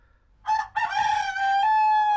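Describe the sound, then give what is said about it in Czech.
A rooster crows in one loud, bright, harmonic call with a short break near the start, then holds steady to the end. The bird is a young cockerel meant for cooking. “Hele, takovej kohoutek by jim přišel k chuti.”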